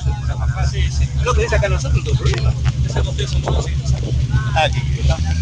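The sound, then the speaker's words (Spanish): A naval prefecture motor launch travels along a river, its engine giving a steady, loud low drone throughout while several people talk over it. “en este momento estamos dirigiéndonos en una lancha de la prefectura naval hacia la Isla del Silencio”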